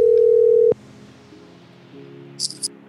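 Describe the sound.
A telephone dial tone hums as a call is being placed. The steady, low, buzzing tone cuts off abruptly after under a second. A faint line hum follows, then two short high-pitched beeps.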